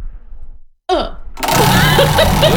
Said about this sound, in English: Small spin, but it spins really fast. Round and round and round and round it goes.